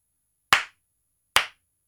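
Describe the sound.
Two sharp hand claps ring out in a wrestling ring at WrestleMania after Roman Reigns beats Brock Lesnar, each a crisp, loud smack with a quick decay, separated by nearly a second of silence.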